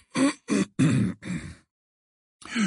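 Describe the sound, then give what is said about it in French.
A throat clearing: four short, rough, grunting bursts in quick succession, loud and alone, then a brief silence before another clearing begins. “À cet instant, Dumbledore s'éclaircit la gorge et le silence revint aussitôt dans la salle.”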